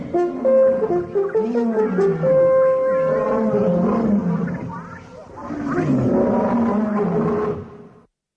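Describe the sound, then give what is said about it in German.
A lion roars on safari in two long, loud, deep growling phrases separated by a short dip, the second trailing off to silence at the end. “Ein Löwe kam näher.”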